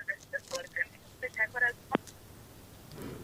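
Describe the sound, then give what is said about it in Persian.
A telephone line drops a call with a run of short electronic beeping tones, then a sharp sweeping chirp, followed by faint hissing line noise. “فکر میکنم تماس قطع شد متاسفانه.”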